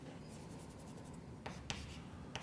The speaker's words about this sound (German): ich schreibe jetzt einfach Nabla hin